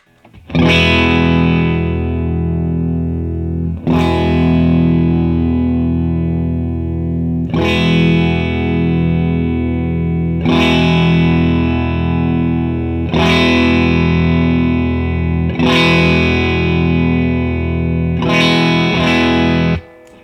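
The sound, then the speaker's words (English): Electric guitar played through a Special Cranker distortion pedal while its tone dial is swept. The same loud, thick distorted chord is struck about eight times, each one sustaining and ringing out before the next, with no talk. “But when you mess with the dial, what it really seems to be messing with is a much higher mid frequency. Maybe it's changing the frequency as you go. Let's listen to that one more time, a sweep.”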